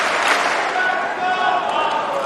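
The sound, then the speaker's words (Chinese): Crowd at a basketball game cheering and chanting a player's name, a dense, steady roar of many voices that carries through the whole clip without a break. “现场在喊着费里的名字，观众呢在给他加油鼓劲儿。”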